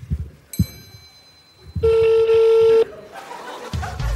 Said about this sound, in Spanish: Su ex lo está llamando. No va a contestar.